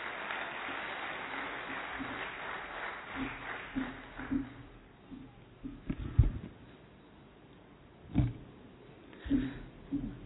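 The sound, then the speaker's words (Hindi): An audience applauds to welcome a guest at an event for the forces. The clapping is dense at first, then thins and fades, followed by a few scattered louder knocks, all fairly faint. “जोरदार तालियों से आपका स्वागत।”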